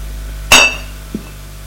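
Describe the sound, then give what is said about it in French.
A glass cognac bottle is picked up, giving a sharp, bright clink that rings briefly, followed about half a second later by a faint, dull knock, all over a low steady hum. “Elle va prendre une bouteille. Elle va prendre une bouteille de cognac.”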